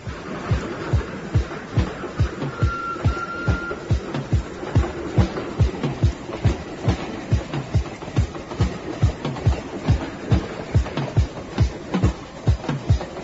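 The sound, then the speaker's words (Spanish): A train runs on rails with a steady, rhythmic clickety-clack of wheels over track joints, many evenly spaced beats repeating throughout over a rumbling background. “Una tarde más, el tren de Vía Libre se pone en marcha.”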